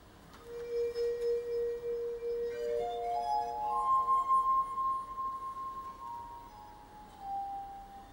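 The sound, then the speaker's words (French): Glass harmonica playing alongside a singing voice in an opera's mad scene: long, pure, ringing tones that step upward in pitch, then settle a little lower near the end, eerie and sustained without pause. “la voix et les sons produits par le verre se marient et se répondent dans une atmosphère irréelle”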